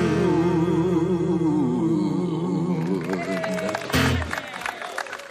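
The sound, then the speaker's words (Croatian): Audience applause at a music pub concert for a singer accompanied by guitar. A sustained, wavering sung note and guitar fade out, and broad clapping and crowd noise take over. “Wow, pa čak čujem i pljesak za njega.”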